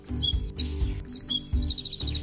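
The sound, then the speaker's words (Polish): A wren singing at dawn, a loud, high-pitched song of quick chirps and warbles that ends in a rapid, evenly spaced trill, over a low background rumble. “To jest strzyżyk, tak? Strzyżyk.”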